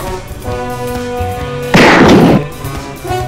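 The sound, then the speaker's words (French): A single gunshot from a .44 Magnum revolver cracks over steady music, a sudden loud blast with a noisy tail lasting about half a second before the music carries on alone. “Ceci est un Magnum 44, le plus puissant revolver du monde. Là-haut, je l'ai vu tirer.”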